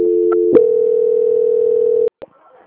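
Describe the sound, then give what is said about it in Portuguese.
Telephone transfer tone as a bank call is passed to its quality department. A brief two-note start gives way to a steady single-pitched tone held for about one and a half seconds, then an abrupt stop and a short click. “eu vou transferir o senhor para o setor de qualidade do Banco Santander”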